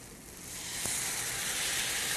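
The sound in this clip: Marinade hits a hot pan of softened onions with a soft hissing sizzle that swells after a brief tap, then holds steady and fairly quiet.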